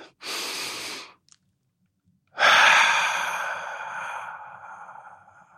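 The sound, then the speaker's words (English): A deep human breath: a noisy inhale of about a second, a brief pause, then a long, breathy exhale that slowly fades, with no talk. “let's take a deep breath.”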